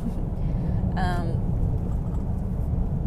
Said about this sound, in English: I'm driving.